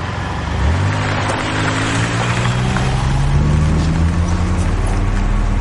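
A car engine in a film scene catches and settles into a steady, low rumbling drone, its tone easing slightly upward as it runs on without a break.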